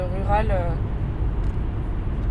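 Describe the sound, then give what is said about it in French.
A car driving through the western suburbs of Lyon gives a steady low engine and road rumble throughout, with a brief tonal voice-like sound near the start. “Vous l'avez entendu, c'est donc en voiture que commence notre périple.”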